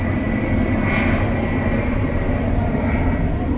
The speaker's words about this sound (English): this is the sound of salvation. This plane is dropping bags of sorghum and boxes of oil.